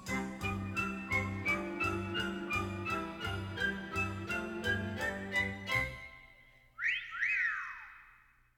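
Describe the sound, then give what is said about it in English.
Whistled melody over a bright, bouncy musical backing with a steady beat and a jingling shimmer, ending with a few sliding whistled notes alone after the music stops. “Come on, get smart, tune up and start to whistle while you work.”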